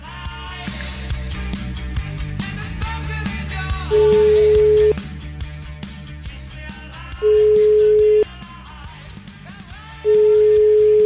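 Ringback tone of an outgoing telephone call, three long steady tones separated by pauses, sounding over continuous background music.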